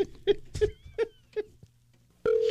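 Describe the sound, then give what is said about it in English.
Telephone keypad tones as a number is dialed: several short, evenly spaced beeps, then a steady, sustained tone that starts abruptly near the end and holds. “So, Tyler, one more time, if you could please dial in the number.”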